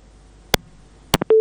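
A telephone line drops after a call: a few sharp clicks and short tone bursts, then a steady, held busy tone at a mid pitch.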